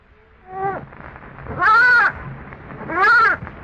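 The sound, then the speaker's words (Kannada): A lost lamb bleats three times, each a wavering, quavering call, with the second and third louder and longer than the first. “ಅದು ತಪ್ಪಿಸಿಕೊಂಡ ಕುರಿಮರಿಯ ಶಬ್ದವಾಗಿತ್ತು.”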